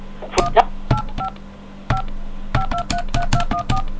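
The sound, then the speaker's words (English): Telephone keypad dialing tones sound as a call is placed through an AT&T long-distance line. Many short, clear beeps come in an irregular rhythm, quickening toward the end, after a few brief clicks. “Place a call. Please dial the area code and number you are calling.”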